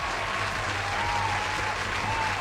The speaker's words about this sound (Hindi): Well, you guys have identified it absolutely correct, तो सबसे पहले आपके लिए तालियां हो जाए।